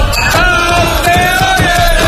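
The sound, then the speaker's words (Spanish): Celebratory yelling inside a bar after a Moto3 world championship win: loud, continuous shouting with a sustained, strained vocal tone running throughout. “Ese grito final no llega a ser un irrinchi, es una cosa rara.”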